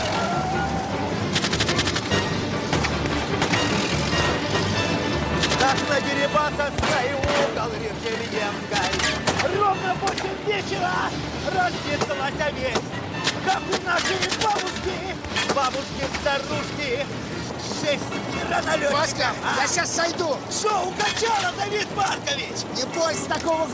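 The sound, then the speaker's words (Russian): Gunfire shot from car windows as police and bandits exchange fire during a chase after a truck: many rapid, loud shots in dense bursts, heard under a narrating voice. “Тем временем одна из милицейских машин догоняет грузовик. Опера и бандиты стреляют из окон машин.”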